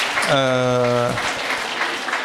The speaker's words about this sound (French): Oui, on peut applaudir, tout à fait.